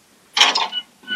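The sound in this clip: Video-game elevator doors opening with a short mechanical whirring slide that swells and fades, followed by a softer second mechanical sound starting just before the end.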